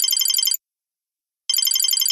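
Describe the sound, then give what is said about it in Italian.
A mobile phone rings on the way back to a tennis court, its bright, warbling electronic ringtone coming in two loud bursts separated by about a second of silence. “Mentre tornavo al campo da tennis, squillò il cellulare.”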